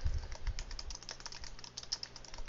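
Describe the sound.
Quick typing on a computer keyboard, with many light, rapid key clicks in an uneven but steady rhythm, fairly faint throughout.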